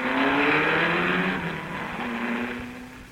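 A race car speeds past in a radio drama: a loud, steady engine roar whose pitch drops partway through as it goes by, then fades slightly, with no other sounds.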